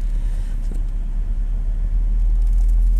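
A car pulling up into a parking lot near a GameStop, heard as a loud, steady low engine rumble with road noise and no clear change in pitch.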